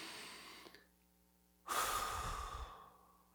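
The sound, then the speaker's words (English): Deep, slow breath during a guided relaxation exercise: a very faint intake of air, then a louder, airy breath rushing out for over a second before gradually fading away, with no talking. “take a deep, slow breath with me, okay? Okay, that's good. One more. Okay, in through the nose.”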